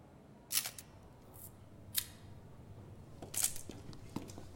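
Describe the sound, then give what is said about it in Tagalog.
Camera shutter clicks sound as someone photographs a seated woman: a few sharp, faint clicks spaced apart, each followed by quieter mechanical ticks, with no talking. “Kinukunan ng litrato ang isang babaeng nakaupo.”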